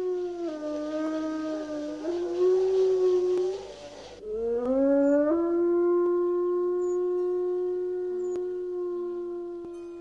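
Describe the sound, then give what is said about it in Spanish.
Wolves howling: long, wavering, tonal howls whose pitch glides and bends, with a second howl overlapping the first partway through, sustained to the end with no talk. “para que en las noches españolas no dejen de escucharse los hermosos aullidos del lobo.”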